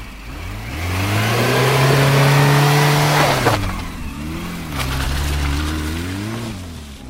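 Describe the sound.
A car engine revs hard as the vehicle speeds off, a loud sustained roar that drops away, then surges again with a wavering pitch.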